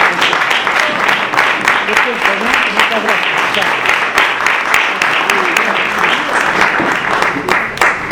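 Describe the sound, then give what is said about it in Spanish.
Dense, loud audience applause as a guest is sent off, many hands clapping in a continuous roar that holds steady throughout. “Horacio, otro aplauso que se tiene que ir y seguimos con la mesa”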